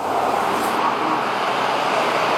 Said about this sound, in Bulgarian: интензивен трафик, тапи и огромен наплив от автомобили към големите градове. Виждате каква е ситуацията към мен? Всички тези коли се движат по автомагистрала Тракия